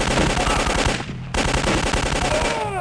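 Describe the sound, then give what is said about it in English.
Rapid automatic gunfire from a shooting video game, dense loud bursts that run almost the whole time, with one short break near the middle before the firing resumes. “Damn, I'm good. You know, I don't know if we should be shooting people like this.”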